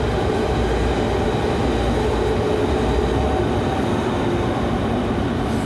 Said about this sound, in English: This is another S-Bahn.